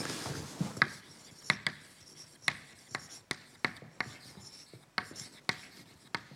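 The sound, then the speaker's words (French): Writing on a board during a statistical physics lecture, heard as a series of sharp taps and short scratchy strokes in an irregular rhythm. The sounds are fairly faint and no one speaks. “Donc je, je l'écris.”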